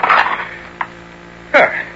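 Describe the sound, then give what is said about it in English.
A lid is lifted off an old jar of olives, giving a brief faint click and then a louder scraping, rattling burst of the lid against the jar near the end. “Now to lift the lid.”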